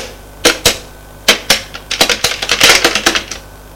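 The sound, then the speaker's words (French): Keys clack on a computer keyboard at a school reception desk: a few separate sharp clicks, then a quicker run of many taps. The typing is fairly loud, with no talk. “Elle tape sur l'ordinateur.”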